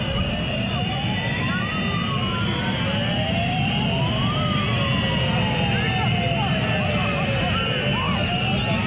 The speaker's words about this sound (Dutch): U hoort de megafoons met de sirenes afgaan achter de goal.